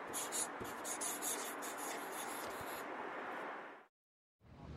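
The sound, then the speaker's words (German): A pen writes on a paper note with continuous scratchy strokes for several seconds, then stops for a brief silence before the scratching resumes. “Ich schreibe auch Hi. Was schreibe ich jetzt?”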